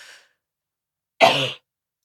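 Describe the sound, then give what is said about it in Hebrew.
One short, harsh nervous cough like a throat-clearing burst, standing alone after a faint trailing breath at the start. “זה השיעול של עצבים מהכסף.”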